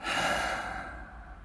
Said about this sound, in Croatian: Još jedan put polako udahni. I polako izdahni.